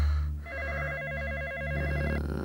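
A telephone rings with a warbling electronic trill. One burst of the rapidly alternating tone lasts about two seconds over a low steady hum, fairly faint and without talk.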